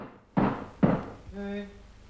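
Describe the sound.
Two heavy knocks on a workshop door belonging to a construction company, about half a second apart, dull and thudding, followed by a short quieter sound.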